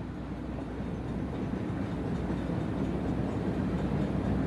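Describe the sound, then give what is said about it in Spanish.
A moving train gives a steady rumble with a soft clatter, a continuous and even wash of low noise with no voices. “Del suave y relajante traqueteo del tren.”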